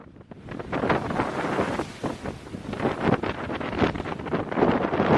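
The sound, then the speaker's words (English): Waves hitting the shoreline of Lake Superior in Duluth, Minnesota, make a continuous rough roar of crashing water with repeated surges. Heavy wind buffeting runs through it, and no one speaks. “on WCCO Twitter, these incredible waves hitting the shoreline on Lake Superior in Duluth.”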